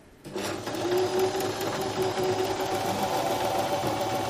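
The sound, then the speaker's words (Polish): A robotic sewing machine sews with a steady mechanical whir that starts abruptly and carries an even, humming tone, running continuously and fairly faintly without pauses. “To w ogóle nie jest ten wspaniały dźwięk, jaki daje zwykła maszyna do szycia, bo ona działa jako robot właściwie, ale szyje bardzo dobrze.”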